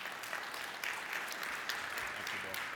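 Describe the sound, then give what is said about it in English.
An audience applauds to welcome the director of a mission agency, with dense, steady clapping throughout, fairly soft, and some voices mixed in. “So give him a warm hand of welcome.”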